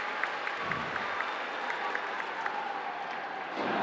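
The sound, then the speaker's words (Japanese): Faint applause from a stadium crowd at a football match as a player comes on the field in Kofu. Soft, steady clapping runs throughout, with a slight swell near the end. “さあまあ小出が来た時にはやっぱりさすがに拍手が送られていました。”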